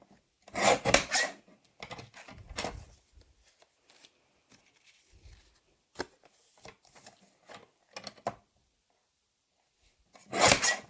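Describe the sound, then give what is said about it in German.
Dry rasping strokes of card stock being cut lengthwise into strips about 5 cm wide for handmade greeting cards, heard as a few short scraping bursts with quiet gaps between, the clearest at the start and end. “Und jetzt nehme ich mir was zum Schneiden und halbiere die einmal längs.”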